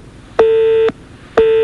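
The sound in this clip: A French telephone busy tone sounds after the other party has hung up on the call. One steady mid-pitched beep is followed by a short gap, and a second beep begins just as the sound ends.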